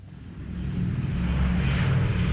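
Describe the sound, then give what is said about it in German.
A low, droning WWII bomber engine rumbles as the aircraft takes off from an airfield in southern England, a deep, steady hum that grows gradually louder over a couple of seconds. “Von über 100 Flughäfen aus im Süden Englands starten ab 1941 Bomber Richtung Deutschland.”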